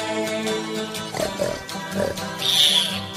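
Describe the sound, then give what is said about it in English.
A pig grunts a few short times in the middle, heard over steady musical tones. “And now I hear a pig, Mary, uneasy in his mind.”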